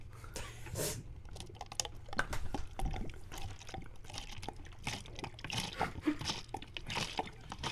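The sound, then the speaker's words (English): Liquid pours from a bottle to refill a drink, a soft, steady gurgling stream with scattered crunchy clicks and taps mixed in. “But I'm refilling right now. Oh, okay. Why didn't you refill when you grabbed the bottle? Can we hear the refill?”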